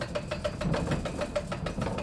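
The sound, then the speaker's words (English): A water-powered flour mill runs with its wheel fed by increased water flow. It makes a steady, fast mechanical knocking and rattling over a low rumble, evenly paced throughout, with no voices. “turns a large metal crank one time around to increase the water flow to the wheel and get the milling process started”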